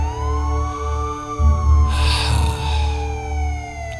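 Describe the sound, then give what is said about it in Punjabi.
A police car siren wails as a loud, sustained tone that glides slowly in pitch, with a low rumble running steadily underneath. “Police ਦੀ ਗੱਡੀ ਸੁਰਫੇ ਨੂੰ ਚੁੱਕ ਰਹੀ ਹੈ”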